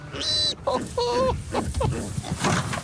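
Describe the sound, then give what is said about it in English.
Young piglets squeal as they are let into their fenced pen on a farm, a few short, high, strained cries breaking through amid snuffling and people talking nearby. “It was then time to put the young piglets in their compound. 10 in here for you.”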